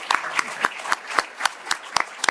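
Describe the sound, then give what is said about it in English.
Applause from a panel audience, made up of sharp, evenly spaced claps in a steady rhythm, moderately loud against a quiet background. “let's give our panelists, let's give Josh Hale a big round of applause.”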